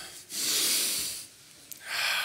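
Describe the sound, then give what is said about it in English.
Standing audience members at a worship gathering breathe in together, making a broad airy hiss. A long inhale swells and fades, then after a short pause another breath begins and holds steady to the end. “Please stand. We need to get the blood flow going anyway. Breathe in.”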